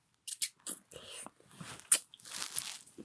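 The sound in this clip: Crunching of a caramel-flavoured hard candy being bitten and chewed, a series of short crisp cracks and crackles in quick bursts separated by brief pauses, fairly faint and close.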